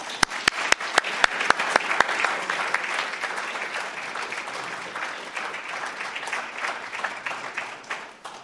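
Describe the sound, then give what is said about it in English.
Audience applause welcoming a speaker at a Montana gathering: a few sharp, isolated claps open it, quickly swelling into dense, steady clapping from many hands that holds at an even level throughout, with no voices standing out. “I would like you to help me give Ted Celeste a warm Montana welcome.”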